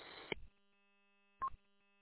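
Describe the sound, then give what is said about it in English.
A two-way radio gives a short electronic beep, preceded about a second earlier by a brief burst of crackly noise. Both sounds are faint and stand alone in silence. “I don't bet maybe that is your radio, giving out a beep every 5 seconds or so. That's weird.”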